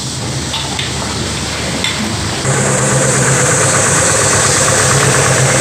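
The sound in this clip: Car engine running at idle, a steady mid-pitched hum with a faint knocking vibration that grows slightly louder partway through, with no talk over it.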